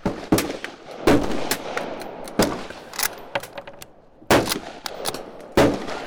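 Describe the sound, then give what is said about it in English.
Loud, sharp gunshots ring out from an old Russian rifle from the 1930s, several cracking blasts at irregular intervals, each followed by a noisy, rumbling tail. “First two shots have not been amazing. No idea if I hit it or anything. So my first shot was with the old Russian rifle.”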